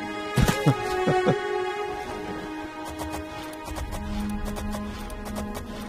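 Horse hooves clop as a rider travels across open country in a large open-world video game. The hoofbeats are irregular and scattered over a steady, noisy background.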